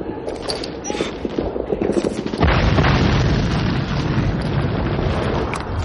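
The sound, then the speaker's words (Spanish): Grenade explosion in a World War II street battle scene from Saving Private Ryan: softer rattling and rustling noise, then one sudden heavy blast midway, followed by a loud, sustained rumbling roar. “Una granada entra en la habitación de Mellish y Henderson. La tiran afuera.”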